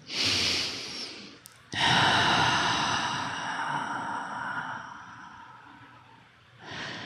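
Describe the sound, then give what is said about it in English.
A person takes a deep breath during a guided breathing exercise: a soft breath in, a long slow airy exhale that gradually fades, then the start of another inhale, heard alone and fairly quiet. “And take another breath.”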